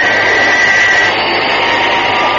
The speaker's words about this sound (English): As Thunderbird 2 gently touches down in the runway alongside the new Fireflash airliner